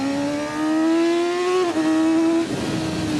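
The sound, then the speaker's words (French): A 600 cc track-style sport motorcycle engine while riding, its tone climbing steadily, dipping briefly at a quick gear change, then climbing again before breaking into a rougher, noisier roar near the end. “Oh là là, l'agilité de la moto, ça c'est génial. Et puis, petit 600 là, il a la patate.”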